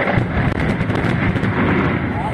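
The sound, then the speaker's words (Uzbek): A loud, continuous roaring rumble from planned rock blasting at a cement plant's hillside quarry near a village in Chust district, Namangan region, Uzbekistan. The roar holds steady with wind buffeting throughout. “Ko'rib turganingiz Namangan viloyati Chust tumani Qoraqo'rg'on qishlog'ida tadbirkorlar tomonidan rejali ravishda amalga oshirilayotgan portlashlardir.”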